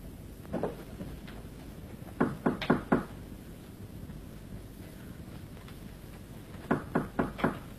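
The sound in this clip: Knocking on a door during a staged Chinese opera scene: one faint knock, then a quick group of four, a pause, and another group of four, sharp and light over a steady background hiss.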